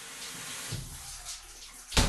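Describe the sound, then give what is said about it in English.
Shower water runs in a steady, continuous hiss with small dips and swells, and a sharper burst of noise comes right at the end. “So that was my shower.”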